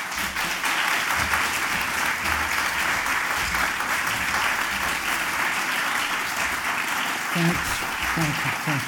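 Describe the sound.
Sustained audience applause at a Ledbury event, welcoming a speaker. The clapping is dense and steady from start to finish, with some voices mixed in.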